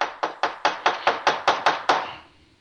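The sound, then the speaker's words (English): A baking pan of batter bounced on a kitchen counter to level it, giving a rapid, even series of sharp, hollow knocks. Each knock decays quickly, and the sequence ends in a fading ring, with no talk over it. “Okay, I'm just kind of bouncing the pan now on the counter.”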